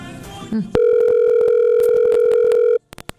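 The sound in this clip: Ringing tone on an outgoing phone call: a short blip, then one long, steady, loud ringback tone lasting about two seconds, followed by a few brief clicks on the line.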